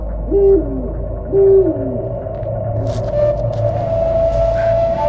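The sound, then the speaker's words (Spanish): An owl hoots at night in a moonlit area, giving two short hoots with falling tails over a low, constant rumble; a faint steady tone lingers afterward. “Un búho la asusta.”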